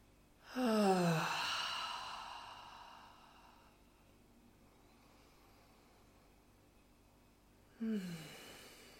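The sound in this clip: Deep breathing during a guided belly-breathing meditation: a long, audible sighing exhale with falling pitch that fades over a few seconds, followed by quiet, then a second breath beginning near the end.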